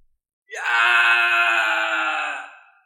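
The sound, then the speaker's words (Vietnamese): A mournful, beast-like wailing howl comes through a gate to a spirit realm: one loud, sustained cry lasting about two seconds, holding steady and then fading out, heard alone without talk. “Lại tiếng kêu gào thê lương truyền tới”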